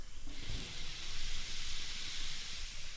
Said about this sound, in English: Go ahead, throw those beef patties on. And we're gonna throw our onion rings on the grill as well.